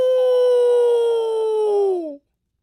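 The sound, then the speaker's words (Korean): A wolf howls once at night on a dark mountain pass. The long, clear howl holds an even pitch for about two seconds, then dips and cuts off into silence. “아우. 늑대다.”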